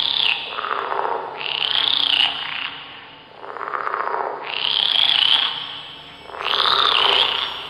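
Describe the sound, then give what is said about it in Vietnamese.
Frogs croak, as if out in the fields, in repeated rasping, creaking bouts separated by short pauses, each with a warbling high-pitched edge. “một âm thanh giận tóc gáy, kèn kẹt kèn kẹt, y hệt tiếng ếch nhái kia ngoài đồng”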